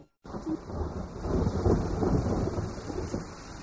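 A thunderstorm with rain gives a continuous broad hiss of falling rain layered over deep rolling rumbles that swell slightly midway. No voices are heard.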